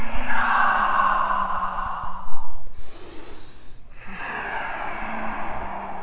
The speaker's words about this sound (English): Full breath in, breath out. Inhale, exhale.